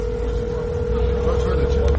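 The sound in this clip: A steady, unchanging telephone tone sounds during a call attempt to Aleppo. The single continuous note holds over low, rumbling background noise for the whole moment.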